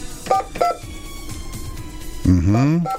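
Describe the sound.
Telephone keypad tones dial a landline, with two short beeps early on and a thin, steady tone after them. A voice breaks in loudly near the end.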